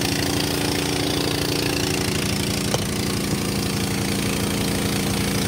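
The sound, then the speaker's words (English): A pump running while cavitating, a loud, steady rough drone with a fast pulsing throb underneath and a brief sharp knock partway through. “I don't like cavitating a pump. Rubs me the wrong way.”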